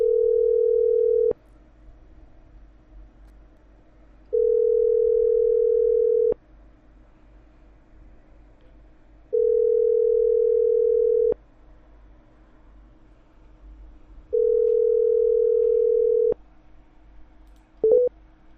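A telephone tone plays while a number is being dialed, with four long, steady mid-pitched beeps separated by even pauses of about three seconds, then a brief final blip. No one speaks.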